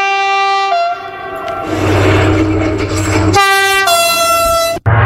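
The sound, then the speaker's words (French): Horn of a TGV high-speed train sounds in several long, loud blasts. A roaring passage of the train fills the middle, and the last blast ends abruptly. “2006, le TGV fête ses 25 ans.”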